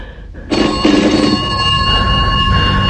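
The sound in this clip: A telephone bell rings steadily and loudly, starting after a short quiet moment and sustaining its bright, metallic ringing to the end without pause.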